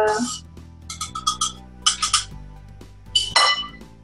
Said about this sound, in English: So once I put the top on, I'm going to do another 3-4 minutes.